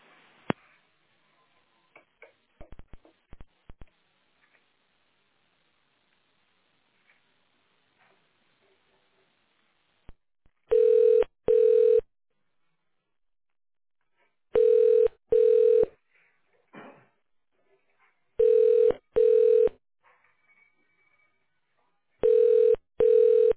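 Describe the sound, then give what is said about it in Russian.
Touch-tone keypad beeps as an extension number is dialed on a phone line to a factory's automated switchboard: eight short, steady tones in four pairs, loud against quiet line noise. “Для соединения с абонентом наберите его внутренний номер в тональном режиме.”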